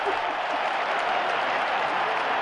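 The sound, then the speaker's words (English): A crowd cheers and applauds at a sports event, a dense, steady roar of voices and clapping that holds at an even loudness from start to finish, with no distinct speech. “The crowd goes wild.”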